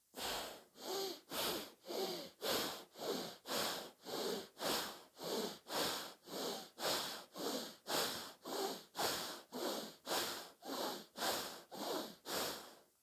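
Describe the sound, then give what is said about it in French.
Alternate nostril breathing exercise, with forceful breaths drawn through one nostril. The nasal breaths come in a fast, steady rhythm, many in a row, each a hissing rush of air. “Grande inspiration à droite. On ferme à droite, on ouvre à gauche, expire à gauche, encore une quinzaine à gauche.”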